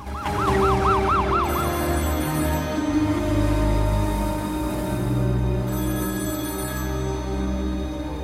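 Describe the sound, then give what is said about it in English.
An ambulance siren pulls in at an emergency room, its fast wailing cycles sweeping up and down for the first second or so, then settling into loud steady tones over a low engine rumble. “An ambulance pulls in at an emergency room.”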